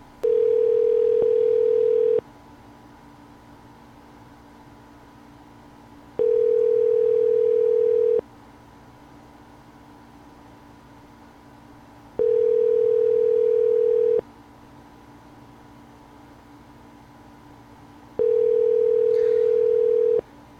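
Telephone ringback tone while a number is being called: four steady mid-pitched beeps, each about two seconds long, separated by roughly four-second gaps of quiet line hiss, with no voices.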